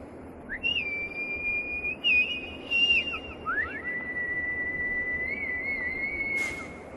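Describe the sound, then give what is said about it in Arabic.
A faint, thin whistle used as an agreed signal call on a deserted shore. It is held long at a high, mostly steady pitch, with a few quick upward slides and short breaks, over a low background hiss. “يسمع صفير خافت كما لو كان نداء متفقا عليه.”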